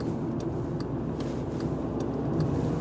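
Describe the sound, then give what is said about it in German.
Morning street traffic as cars drive to work: a steady low rumble of passing vehicles with faint ticks above it, holding evenly throughout. “Erstaunlich viel los um die Uhrzeit hier auf der Straße. Aber klar, die fahren jetzt alle zur Arbeit, so wie ich auch.”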